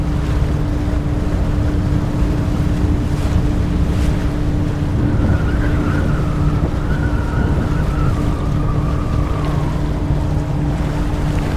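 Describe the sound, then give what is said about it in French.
Sea swell and wind around a fishing boat at sea: a loud, unbroken wash of water and wind noise over a constant low engine hum, with no voices. “Il commence à avoir de la houle. On va devoir faire demi-tour.”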